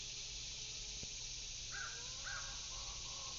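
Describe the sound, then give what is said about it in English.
Outdoor bird calls, a couple of short crow-like caws, rise faintly over a steady wash of background noise. No voices are heard. “a rising up out of the earth of all of these different species, all singing a different song, but singing loudly.”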